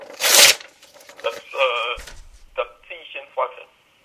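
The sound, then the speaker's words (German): A paper score sheet from a betting game is torn apart in one loud, rough ripping burst near the start, followed by quieter rustling and talking voices. “Ich habe die Auswertung gerade durchgerissen, wie man gehört. Ich mache das auch gerne nochmal.”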